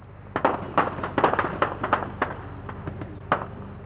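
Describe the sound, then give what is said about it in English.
Gunfire from MPLA soldiers carrying out forced conscription round-ups on a city's outskirts during wartime: many sharp, dry cracks in irregular bursts, some closely clustered, others spaced apart. “that bit of shooting was not a gun battle between opposing forces. It was what's called forced conscription attempts here.”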